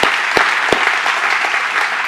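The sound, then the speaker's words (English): Loud, appreciative audience applause for parking, setup and serving teams who worked in the rain: a thick, steady wash of clapping with a few stronger bursts near the start. “I just want to ask you to put your hands together, give a special, like, appreciative clap for our parking team and our setup team and those people serving in the rain.”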